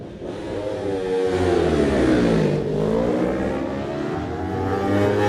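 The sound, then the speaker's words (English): Yamaha racing motorcycle engine revving hard in a loud, continuous roar. The engine note sweeps down toward the middle, then climbs back up as the throttle opens again, with no voices over it. “Next rider to the line, 39. That's, of course, Matt Stevenson. This time on the Yamaha. Let's have a listen.”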